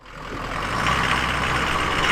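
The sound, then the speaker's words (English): A musher's truck pulls into a warehouse in South Fairbanks with a steady, loud engine rumble that builds over the first moments and then holds even. “Chattanooga musher Dan Caduce pulls his truck into a warehouse in South Fairbanks”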